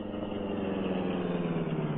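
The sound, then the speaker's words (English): A car engine idling while parked in a dark alley, a steady low rumbling hum with an even pulsing throb and no change in speed, heard alone without voices. “Then he put his car in a dark alley where it would be unseen for the next hour or so.”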